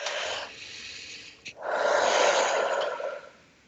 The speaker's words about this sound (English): if everyone in the sound of my voice could do it right now, just take a deep breath